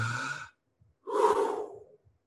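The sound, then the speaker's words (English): An audience at a church gathering breathes together on cue: a brief breathy sound, a pause, then one long, loud rushing breath that fades out. “I need everybody to breathe for a second. Okay, everybody go.”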